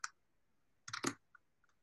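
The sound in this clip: Faint computer mouse clicks while inserting a citation in Mendeley: a few sharp, light taps, with a quick cluster in the middle and single clicks around it.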